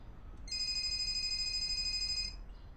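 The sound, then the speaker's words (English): A mobile phone rings with an incoming call: a single bright, steady electronic ringtone that starts abruptly, holds for about two seconds and cuts off, with no talk. “She looks at her phone and sees that Danny is calling.”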